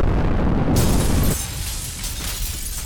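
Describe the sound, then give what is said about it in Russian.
An explosion at a school building blasts out as a loud, dense roar for just over a second, then falls to a lower, lingering rumbling and crackling tail. “Взрыв прогремел в момент, когда из окон школы в панике начали выскакивать люди.”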